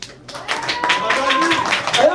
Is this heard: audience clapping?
yes